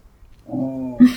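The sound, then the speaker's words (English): A puppy grumbles close to the microphone: a single short, low, throaty growl that swells steadily and ends with a brief, louder push. “Woody is loudly grumbling very close to the microphone, and we can't get him to stop or leave.”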